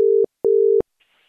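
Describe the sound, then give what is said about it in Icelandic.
Telephone line tones while a call is placed to the Westman Islands: a steady mid-pitched tone sounds twice, each lasting under half a second with a short gap between, followed by near silence. “En við ætlum að hringja til Eyja.”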